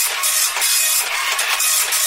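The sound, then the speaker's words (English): An old, slow office printer runs continuously, producing a loud, dense mechanical whir and hiss with a gentle rhythmic pulsing as the paper feeds through. “print it off. Oh. We've really got to get a new printer. This is every day, it's just ridiculous.”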